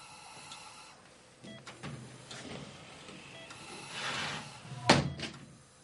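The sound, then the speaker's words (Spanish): A sliding glass door opens in a hospital room, starting as a faint rolling glide that grows louder and ends in a sharp thud near the end. “Abre la puerta corredera de cristal y se acerca a la cama.”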